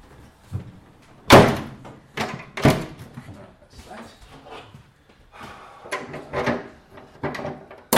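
An aircraft latch on a Bristol Beaufighter is worked: two loud, sharp metallic clunks stand out among a few softer knocks and rattles.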